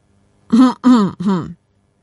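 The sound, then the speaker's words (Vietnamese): A man's dry throat clearing: three short, voiced coughs in quick succession, each burst fairly loud and rough, followed by silence. “Trường Huy lại ho khan, có một chút hơi lúng túng.”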